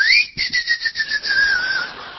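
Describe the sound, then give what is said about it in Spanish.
Steam escaping through the release valve of a pressure cooker makes a loud, high, sustained whistle. The tone rises slightly at first, then slides gradually lower, and its loudness wavers. “La olla a presión en el momento que vos la tenés que sacar, chifla, te hace.”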